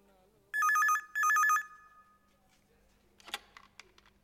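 A telephone rings in two short bursts of bright, trilling electronic tone separated by a brief gap. Afterward, only faint, scattered clicks follow.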